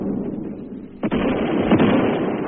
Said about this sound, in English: Throwing grenades onto the Nips. Look at him.